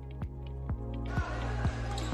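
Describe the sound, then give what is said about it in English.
A basketball bounces on the court during a Columbia Central versus Marshall County high school girls' game, five steady dribbles at an even rhythm over a constant low hum. “Columbia with the basketball, turns it over on the inbound to play, taken by Marshall County.”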